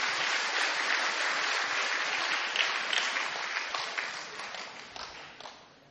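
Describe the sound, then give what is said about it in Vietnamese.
Audience applause at a Buddhist ordination ceremony, a thick wash of many hands clapping that holds strong at first, then gradually thins and fades toward the end. “Một lần nữa xin một tràng pháo tay nhiệt liệt chúc mừng.”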